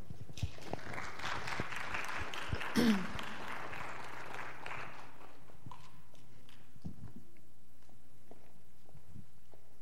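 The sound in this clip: Congregation applause welcoming a speaker: soft, scattered clapping over the first few seconds that thins out and dies away into near silence.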